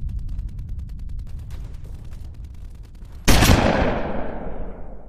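A gunshot sound effect for a man shot in the chest: one loud, sharp blast cracks out after a stretch of quieter rhythmic ticking and low rumble, then rings away in a long, fading tail.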